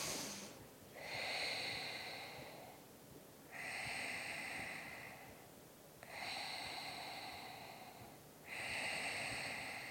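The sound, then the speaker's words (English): Natural breaths in and out: four slow, quiet, airy breaths at an even pace, each a soft hiss rising and fading, with no talking. “Just taking first 2 natural breaths in and out.”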